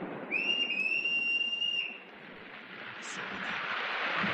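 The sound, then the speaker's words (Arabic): Sailors' whistle blown as a signal: one long, high whistle blast that lifts slightly at the start, holds a steady pitch for over a second, then stops, leaving a soft hiss behind. “وايه الامارة؟ صفارة البحارة.”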